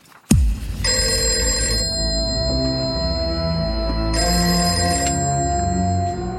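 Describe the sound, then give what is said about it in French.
An old-style telephone bell rings during the Second World War French Resistance era. A sharp click comes first, then two clear bursts of bright, rattling ringing separated by a quiet pause, with no voices. “un coup de téléphone alerte les résistants”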